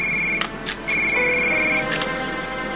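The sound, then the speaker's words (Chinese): Telephone ringing, a thin, high electronic tone in broken pulses over a steady bed of background noise. “接电话。”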